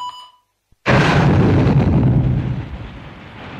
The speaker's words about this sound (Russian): Тут Злат достал дистанционный пульт и нажал на кнопку.